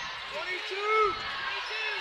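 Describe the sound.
Basketball dribbled on a court during a women's game, repeated bounces set against steady broad background noise, with a few high squeaking tones.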